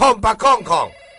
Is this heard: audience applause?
no